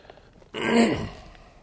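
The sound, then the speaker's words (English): A person clears a tickle from their throat: one rough, gravelly burst of about a second that swells and then fades, heard alone. “I'll get this tickle out of my throat.”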